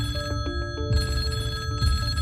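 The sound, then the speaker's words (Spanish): A landline telephone ringing in a flat, sounding as repeated bright trilling bursts at a steady level, one ring following closely on another with no voices. “El teléfono fijo de este piso en el que me encuentro ahora mismo con Juan y Luisa no para de sonar”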